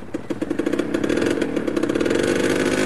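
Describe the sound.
A motorcycle engine revs loudly and steadily, its rapid firing pulses merging into a dense, rough roar that holds for a few seconds with no voices.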